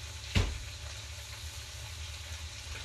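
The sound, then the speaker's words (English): Meat frying in a pan and stirred now and then gives a quiet, steady sizzle, with one brief knock near the start. “So right now we're just waiting for a few minutes until that cooks, stirring occasionally. And then we'll come back once this meat is done.”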